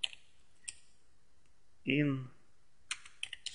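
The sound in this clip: Computer keyboard keys clicking as a yum install command for a package is typed into a Linux terminal. A few isolated taps come first, then a brief voiced sound, then a quick burst of keystrokes.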